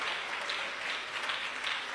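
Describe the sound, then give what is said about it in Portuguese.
A church audience claps their hands in dense, continuous applause that holds at a fairly even level for about two seconds, with no talking. “Pode bater as palmas para Jesus.”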